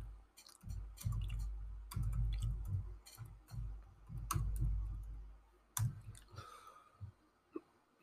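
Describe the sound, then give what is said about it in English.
Typing and clicking on a laptop keyboard and trackpad. Many faint, irregular clicks and taps run in uneven clusters, with a few louder isolated clicks. “Let me Google this. I got my laptop right in front of me.”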